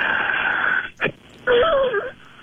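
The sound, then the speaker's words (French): A patient breathes out forcefully during a breathing exercise, making a long, strained, whistling wheeze. A brief break follows, then a second wavering wheezy exhale. “Je veux vous sortir le plus d'air possible, puis si elle a râlé, ben ça râlera, comme on dit.”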